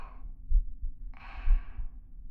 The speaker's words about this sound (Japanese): あったかい。お前の熱も鼓動もまだまだ感じる。